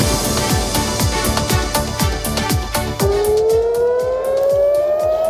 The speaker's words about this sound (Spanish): Este es el sonido de las sirenas que se ha oído hace pocos minutos, que se han oído hace pocos minutos en Jerusalén y en Tel Aviv.